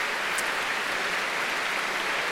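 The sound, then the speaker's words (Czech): Continuous applause from a classical concert audience after the first part of the concert, a dense, steady wash of clapping with no breaks and no talk. “Potlesk ještě stále neukončil první část.”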